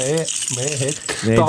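A bunch of keys on a ring jangles and rattles in loose, uneven bursts, with humming vocal sounds running underneath.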